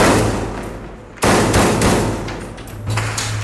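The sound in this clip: Gunfire in a battle between two facing snipers in an urban district near a seafront: several sharp, loud cracking shots at irregular intervals over a steady low hum, with no talking.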